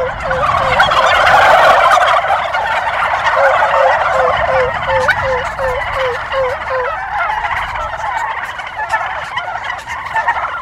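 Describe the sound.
Turkey toms gobble loudly in a burst of overlapping calls, followed by a quick run of evenly spaced, high-pitched yelps. A softer, rough chorus of gobbling continues underneath to the end.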